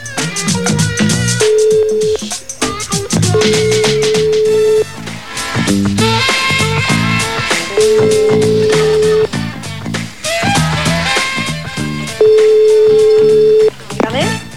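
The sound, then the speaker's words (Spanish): A phone line rings on a call to Antonio Gala's home: four long, steady mid-pitched ring tones sound one after another over loud music. “Truquem a casa de l'Antonio Gala? Sí. M'estàs dient? Ho provem. Truquem a Cal Gala. Aviam si s'hi posa.”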